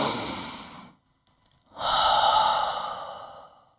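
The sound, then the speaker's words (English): A deep breath drawn in and then let out: two long, soft rushes of air separated by a short silent pause with a faint click. No talking. “Everyone take a big deep breath.”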